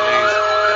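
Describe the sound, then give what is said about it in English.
A police siren sounds briefly, giving a loud, steady, high wailing tone that lasts under a second. “Police. Whoop! Whoop! That's a sound of police.”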